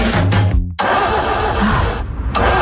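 Car engine starting in a radio advertisement about starting problems: a brief sputtering turnover, a short cut, then a dense, loud, steady engine rumble that runs to the end.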